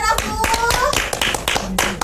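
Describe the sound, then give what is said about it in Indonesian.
Children clapping during a classroom quiz activity: many sharp, distinct hand claps in an uneven rhythm, loud and close, with children's voices talking over them. “aplaus dulu”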